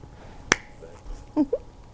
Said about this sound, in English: I'm gonna have you do my clap once more.